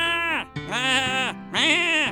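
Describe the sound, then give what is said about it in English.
A person imitating a goat, bleating three times in long, nasal, quavering cries, the second drawn out longest, with no other talk. “That's weird goat noises I'm making.”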